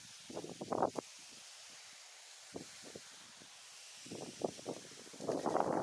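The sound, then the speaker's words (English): Wind gusting outdoors on an autumn walk along the Thames Estuary. Rough, rustling bursts of buffeting noise come and go, with a quiet lull in the middle and a strong, building gust at the end. No one speaks. “So as you can hear, the wind's sort of picking up quite a bit now.”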